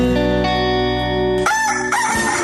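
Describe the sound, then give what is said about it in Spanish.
A rooster crows loudly with a strained, wavering call in the second half, following a steady sustained tone. “El gallo.”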